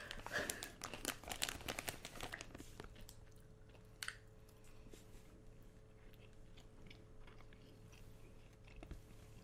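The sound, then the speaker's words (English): A bag of fuzzy rings snacks is opened with a faint burst of crackly plastic crinkling over the first couple of seconds, then it goes nearly quiet with only occasional small rustles. “You just open the bag and, like, just get like...”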